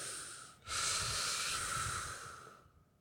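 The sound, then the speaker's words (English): A deep breath is taken, a single long, airy rushing hiss lasting about two seconds before fading, soft and breathy with no talk over it. “Both of you take three deep breaths right now.”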